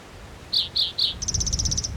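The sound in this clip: A bird calls with three short, high chirps in a row, then a fast, even trill of about a dozen quick notes at a similar high pitch, over a low background rumble.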